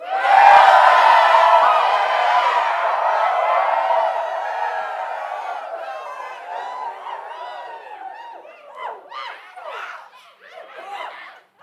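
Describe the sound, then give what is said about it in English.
Studio audience cheering and laughing, a loud burst of crowd noise at the start that gradually thins into scattered chuckles and whoops. “our lovely studio audience is always happy to see us”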